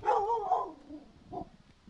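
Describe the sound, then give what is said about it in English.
A black lab pit bull mix dog barking at the door of a home, a few short, moderately loud barks with a gap before the last, quieter one. “A black lab pit bull mix named Animoosh barks at the door of Sandy Derrigan's home.”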